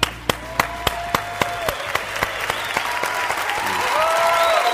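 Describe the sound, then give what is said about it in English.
Audience applause welcoming a speaker on stage starts as a few distinct, regular claps and then thickens into dense crowd clapping that grows steadily louder. “Would you put your hands together, all of our campuses, and give a big warm welcome to Dave Ramsey?”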